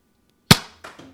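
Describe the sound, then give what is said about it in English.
A toy Nerf rocket launches from its launcher with one sharp, loud pop, followed by two softer thumps as it lands in a kitchen. “you put in the little Nerf rocket, you push it down.”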